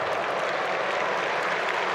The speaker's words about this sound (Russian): 13 номер Федор Черных с поля уходит. Зрители ему аплодируют. Федя аплодирует в ответ болельщикам.